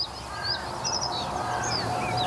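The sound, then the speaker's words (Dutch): A carrion crow calls among thin, high chirps from other birds, set against a steady, fairly loud background hiss. “We horen nog een zwarte kraai.”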